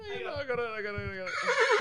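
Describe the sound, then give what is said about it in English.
A horse neighs in a long, high whinny with rich harmonics that tremble and waver toward the end, over a few low thumps. “I got it. A horse, of course. There it is.”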